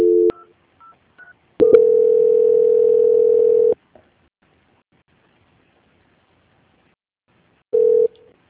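Telephone tones sound during a call transfer: a few short keypad beeps, then a steady tone lasting about two seconds, a long silence, and one more brief tone.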